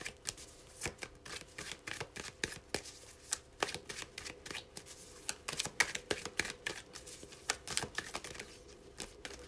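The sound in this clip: Tarot cards are handled and dealt, making many quick, crisp paper snaps and flicks in an irregular rhythm. They are fairly quiet, with no talk over them.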